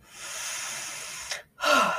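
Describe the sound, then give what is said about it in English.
A deep breath: a long, steady, airy inhale lasting over a second, a brief silent pause, then a strong breathy exhale, with no talking. “I took a deep breath”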